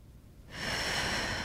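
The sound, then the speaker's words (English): A deep breath drawn in: after a quiet half second, a steady airy inhale swells up and holds to the end, fairly soft. “take in a deep breath”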